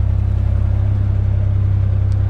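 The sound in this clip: Canal boat engine running with the throttle being opened: a loud, steady, low throbbing rumble with an even mechanical pulse and no other sounds.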